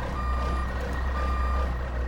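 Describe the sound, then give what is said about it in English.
Reversing beeps from a Brinks armored truck backing up: two long, steady, high-pitched beeps over a constant low engine rumble. “back up the Brinks truck”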